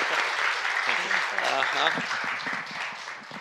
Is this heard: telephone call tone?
no